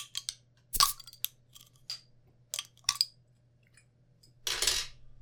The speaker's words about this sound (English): Bottle cap issues there? Yeah, the lids on these things suck.